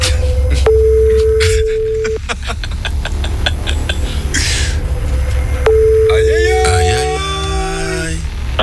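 Ringback tone of an outgoing telephone call before it is answered: two long, steady mid-pitched tones separated by a pause, with faint ticking clicks between them and a short burst of rising tones at the end.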